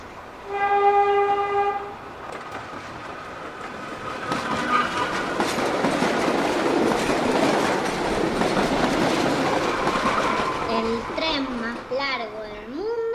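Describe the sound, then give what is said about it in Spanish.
A long train in Mauritania, 200 wagons pulled by four locomotives, opens with a steady horn-like tone, then gives way to a continuous loud rumble and rolling clatter that carries through to the end. “Se encuentra en Mauritania, África. Tiene 200 vagones y es arrastrado por 4 locomotoras.”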